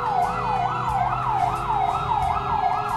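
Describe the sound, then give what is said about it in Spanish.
A siren sound effect: a loud electronic wail whose pitch sweeps up and down in quick, regular cycles, repeating steadily without a break for the whole three seconds. “Ahí vienen las sirenas de Júpiter.”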